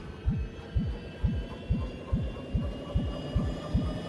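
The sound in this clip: A time machine sound effect: nine evenly spaced, low throbbing whooshes, each swooping up and back down in pitch, over a steady electronic hum.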